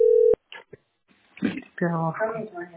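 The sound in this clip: A telephone tone sounds during a call, a loud steady hum that cuts off abruptly after a moment. A few faint clicks follow, then a person starts talking.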